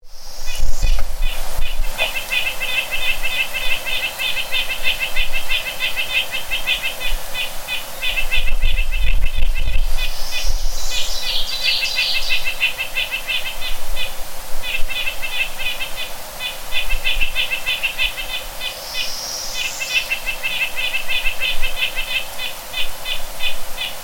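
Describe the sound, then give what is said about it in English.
Bay-breasted warbler song: a series of very high, thin, rapidly repeated notes delivered in several separate phrases, each a brief even trill, sung alone. “Bay-breasted warbler.”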